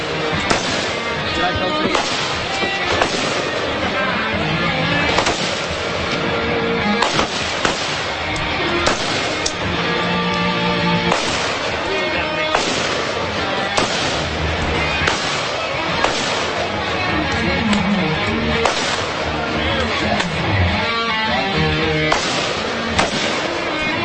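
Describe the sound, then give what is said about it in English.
Gunfire from target shooting at cans and targets: many sharp cracks at irregular intervals over a busy background, with people talking at times. “So if you're listening on radio, there's a lot of shooting going on, obviously, but they're hitting cans and hitting targets, and it's just a good little montage of Americana.”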